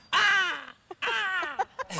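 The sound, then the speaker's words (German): A person imitates a black-headed gull with two drawn-out, screechy calls that fall in pitch, each followed by short clipped notes, loud and with no other sound. “Kannst du auch gut Vogelstimmen imitieren? Kannst du die Lachmöwe vormachen? Ich kann es mal probieren.”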